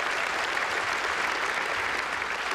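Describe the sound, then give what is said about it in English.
Applause from an audience at a live event, greeting a performer who wrote a Welcome to Country piece; dense, continuous clapping holds an even loudness for the whole stretch. “Yeah, give it up from Brother James.”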